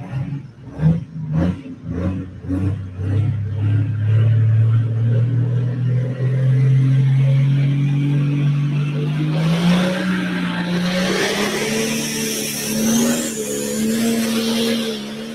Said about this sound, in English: It's time to go pulling. So hang tight, everybody.